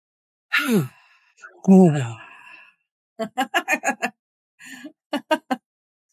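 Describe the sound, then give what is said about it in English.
A deep breath pushed out with a voiced ah comes as two sighing exhales that each slide downward in pitch. Brief talk follows them. “really press that breath out as much as you can, and then exhale with like an ah sound.”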